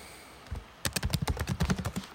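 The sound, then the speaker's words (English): Fingers type on a computer keyboard in a quick, uneven run of many light clicks, preceded by a faint tap. The keystrokes are soft and crisp, with no voices. “I'm typing because I'm looking something up.”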